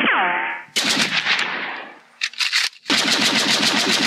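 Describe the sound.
Gunfire in a radio drama, warning shots aimed wide during a standoff: loud bursts of rapid shots, a short broken burst, then a sustained rattling volley.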